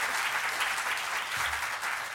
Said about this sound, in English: let's all applaud Amelie.